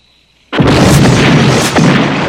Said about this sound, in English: The house explodes in a blinding light of fire.